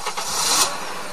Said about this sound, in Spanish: Arranque de motor.